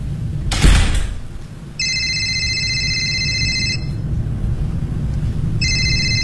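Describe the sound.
A telephone rings with a steady electronic trill, two rings separated by a pause, the second cut short. A brief thump sounds just before the first ring.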